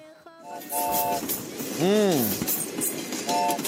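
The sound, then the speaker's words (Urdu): Train running sound effect: a continuous rumbling, chugging clatter with a few short whistle-like tones, one of which bends up and then down in pitch. “چھپ چھپ کرتی train سفر پر روانہ ہوئی.”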